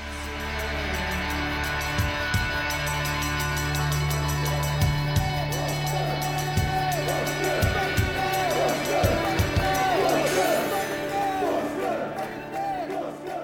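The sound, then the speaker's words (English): A football stadium crowd roars after a Bournemouth goal, a dense, sustained wall of cheering and shouting that stays loud throughout with a few sharper bursts. “Pugh for Bournemouth! The roof at the Gold Sands is raised! Everyone here knows what that could mean to this football club.”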